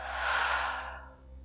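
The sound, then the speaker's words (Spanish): A deep exhale released through the mouth during a guided meditation for dealing with addictions: one long, breathy rush of air that swells, then fades away within about a second. “Y hazlo una vez más. Inhala profundo. y por tu boca sueltas.”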